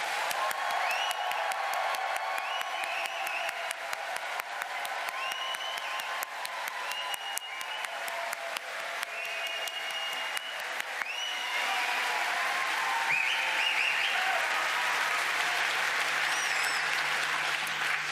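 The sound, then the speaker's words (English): An audience gives a loud, sustained round of applause: dense, steady clapping from many hands that carries on without a break for about eighteen seconds. “So I would like you all to give the loudest round of applause you possibly can, so we can hear it at the other end of the site, and everyone can actually hopefully hear that you'll want them to be there.”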